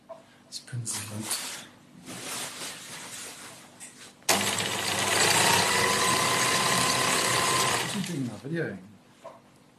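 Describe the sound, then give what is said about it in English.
A sewing machine stitches a big piece of green fabric meant as a backdrop, starting with a few short whirring bursts, then running in one loud, steady whir for about four seconds before stopping. “He's sewing a green screen. It's a big piece of green material that he's going to use as a backdrop”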